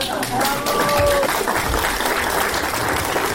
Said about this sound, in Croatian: A taj rad i trud publika željna kulturnih događaja nagradila je obilnim pljeskom.